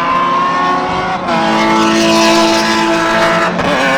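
Race car engines roar continuously during a race, a loud, sustained mechanical drone with strong tonal whine and slight shifts in pitch throughout, with no talking.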